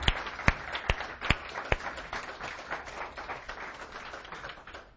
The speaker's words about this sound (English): So can I ask you to put your hands together and welcome Chris DeBlanche as he comes and shares with us.